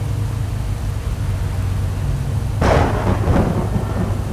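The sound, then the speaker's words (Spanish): Heavy rain hisses steadily and evenly, then a sudden loud burst of thunder breaks in partway through. A broad, rough rumble follows and lingers over the continuing downpour. “Ya, vamos, que se está alargando a llover más fuerte.”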